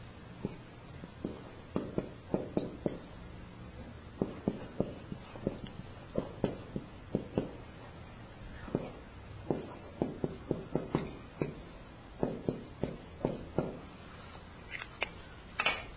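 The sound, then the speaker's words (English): A timeline drawn by hand, many short scratchy strokes in quick irregular clusters with brief pauses between them, fairly faint and without talk. “There's a black. I want to draw out a timeline here as we progress on today.”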